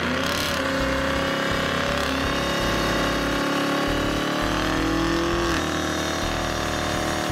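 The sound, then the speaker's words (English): Engine sound of a 2022 Chevrolet Camaro 2SS with its 6.2-liter V8, a loud, dense, continuous rumbling drone with steady harmonic tones, heard alone without talk. “This 2022 Camaro 2SS is in a beautiful shadow gray color. In true Camaro style, there's a lot of grill on this car. That isn't for nothing, as of course you need to cool down the powerful 6.2 liter V8.”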